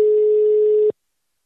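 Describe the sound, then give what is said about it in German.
A telephone ring tone sounds once as a call goes through: a single steady, pitched beep lasting under a second, then silence. “Wir klingeln mal durch.”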